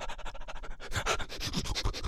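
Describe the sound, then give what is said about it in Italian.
A voice imitates a dog panting with its nose out of a car window on a trip: rapid, rhythmic breathy huffs, lighter and quicker at first, then louder and more voiced. “Avete mai visto un cane durante una gita? Ha il suo naso fuori dal finestrino e fa...”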